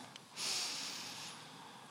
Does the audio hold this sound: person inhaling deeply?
yes